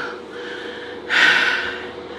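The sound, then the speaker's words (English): Heavy breathing as someone catches their breath during a break from work. One loud, sharp, gasping inhale stands out above softer, noisy breaths. “Excuse me as I catch my breath.”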